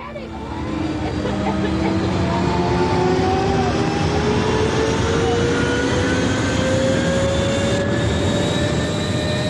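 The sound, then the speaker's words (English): Jetpack thrust flying high over a city: a steady, jet-like roaring rush builds in after a brief quiet start, with thin whining tones that slowly rise in pitch as the thrust carries on. “I'll use my little jetpack action. Ready? Let's go!”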